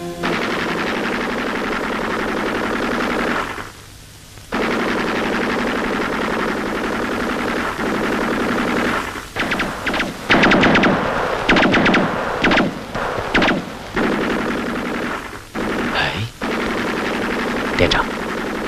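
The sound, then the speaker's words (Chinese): An enemy sentry machine gun fires near a mountain gully. Dense, loud gunfire drops out briefly early on, then returns as choppy, uneven bursts. “战士们正在行进，却听到前方响起了枪声。”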